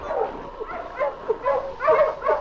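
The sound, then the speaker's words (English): A dog whimpering deep in its throat at a sad farewell in the snow, a run of soft, high, wavering whines that rise and fade repeatedly throughout, with no talk. “King only whimpered deep in his throat”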